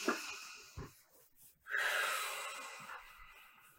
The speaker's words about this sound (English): So rubbing our palms together, I always like to bring that energy in and just take a nice belly breath in as deep as you can.